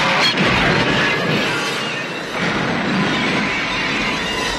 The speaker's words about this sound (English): As soon as the shopper is centered in the frame, the window explodes violently towards the camera.